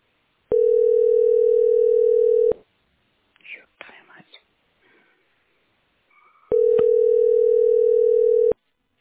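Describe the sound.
A telephone ringback tone sounds on a call that goes unanswered. Two long, steady, loud tones are separated by a pause of about four seconds that holds faint whispery murmurs and rustles.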